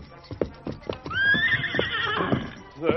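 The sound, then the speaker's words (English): A white stallion named Silver neighs in a long, loud, shrill whinny that rises and then holds, preceded by a few hoof clops and followed by a short, softer whinny at the end. “As the white stallion saw his master in pain, he became more determined to stand by him.”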